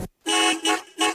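Car horns honk in celebration of a national team's victory. A clipped toot is followed by three loud, sustained, bright horn blasts with short gaps between them.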